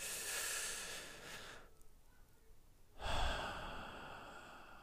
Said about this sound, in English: And then just take a deep breath.